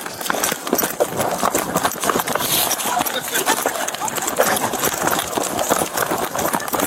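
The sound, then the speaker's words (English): Rapid pattering of a pig's feet as it runs while being chased around a yard: many quick, irregular beats in a dense, loud and continuous stream. “I love that all you can hear is the running.”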